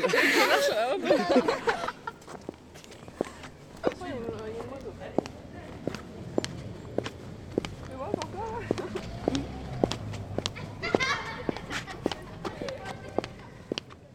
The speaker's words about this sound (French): mademoiselle, est-ce que tu peux marcher sur la route pour qu'on entende les bruits de basket?